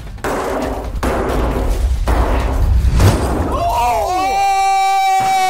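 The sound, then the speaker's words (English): Heavy, booming thuds as a strongman strikes a sandstone slab of bedrock and breaks it: four hard blows at roughly even intervals, followed by excited voices. “Do you think we can break it with this? Sandstone's much stronger than you would anticipate it to be. You and me both attack the middle again, go heave-ho thing.”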